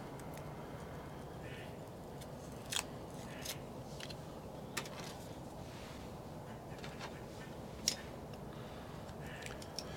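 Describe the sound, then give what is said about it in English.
A cutter clipping a Drew Estate Blackened M81 Robusto cigar: a few faint, sharp clicks with one crisper snip near the end, over a quiet background hiss. “So, let me go ahead and take this footband off and clip it, and let's check the draw.”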